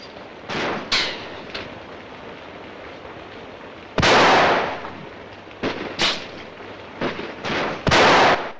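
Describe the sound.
Gunfire as a policeman shoots: loud, sharp bangs in irregular bursts, several clustered near the start and a heavier run of shots in the second half, with no talk.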